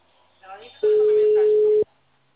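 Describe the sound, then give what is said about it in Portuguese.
An unanswered phone call gives one long, steady ringback tone, a loud mid-pitched drone that cuts off abruptly. A brief voice is heard just before it. “Ai, essa louca não atende. Mas ela tá ligando.”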